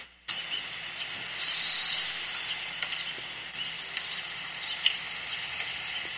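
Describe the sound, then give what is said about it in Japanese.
A bird calls in a mountain forest: one drawn-out, high call stands out, followed by a few brief faint chirps, all over a steady hiss of background ambience with no voices. “今鳥の鳴き声聞こえましたよね。”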